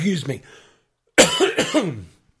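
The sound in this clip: Coughing during a sports-betting discussion: a short harsh burst, a pause, then a louder run of several rough coughs that fade out, with no one talking.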